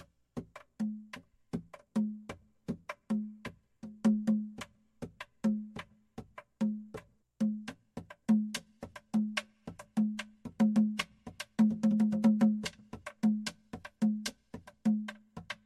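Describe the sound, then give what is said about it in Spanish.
The pujao drum of culo e' puya rings out alone with crisp, clustered strokes over a steady pulse, ornamenting the rhythm. A denser flurry of rapid hits breaks in about three quarters of the way through. “Tambor pujao es el que va repicando y adornando el ritmo. Suena así.”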